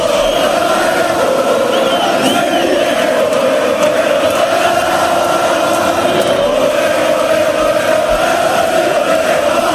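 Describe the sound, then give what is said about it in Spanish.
Deportivo de La Coruña fans celebrate promotion to Primera División with a loud, unbroken crowd roar that holds steady for the whole stretch. “Así celebraba la familia blanquiazul el ascenso a la Primera División.”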